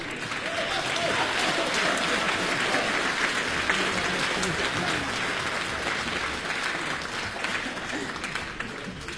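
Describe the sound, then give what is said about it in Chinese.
Audience applause following an elderly woman's singing, a dense, steady wash of many hands clapping at an even, fairly loud level for the whole stretch with no break. “我谢谢您的鼓掌欢迎”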